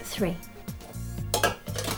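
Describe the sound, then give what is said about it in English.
Dishes clink as tea bags go into a teapot: a few bright, ringing china knocks come in short, irregular bursts over a low background. “Right, now put the tea bags on the teapot.”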